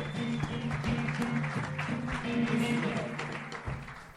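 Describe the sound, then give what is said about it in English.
Audience applause and cheering for a comedian taking the stage at a live comedy show, a dense, steady clatter running throughout over loud band music with a repeating low bass line. “Put your hands together for the great Allie Makovsky, everyone. Yay, Allie.”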